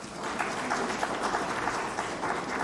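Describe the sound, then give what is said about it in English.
Applause from an audience in a hall, given in honour of government efforts to provide services, a steady, fairly soft patter of clapping with small bursts standing out along the way. “Give a round of applause for the efforts of the government.”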